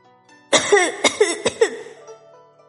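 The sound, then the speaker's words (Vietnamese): Coughing from a person lying flat on the ground just after being pulled out of water and thrown onto the bank: a sudden, voiced, hoarse burst followed by several rapid, choking coughs, then quiet. “Người kia nằm rạp trên đất ho.”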